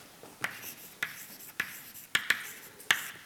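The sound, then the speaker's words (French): Scratchy writing strokes as a formula is written out during a lecture. A handful of short, sharp scrapes come at an uneven pace and stand out against quiet background. “je vais vous écrire la formule”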